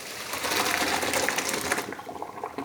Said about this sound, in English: Now drain the pasta al dente